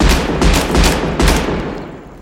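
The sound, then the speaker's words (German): Pistol gunshots in a film scene: several loud, sharp blasts in quick succession, fading out at the end. “Und Tommy sticht dann mit seinem riesigen Messer immer wieder auf ihn an und Jimmy feuert seine Pistole ab.”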